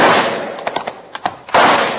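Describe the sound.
Rifle shots ring out in a loud, quick volley of sharp cracks, several close together in the middle, set between heavier bursts of gunfire noise at the start and near the end.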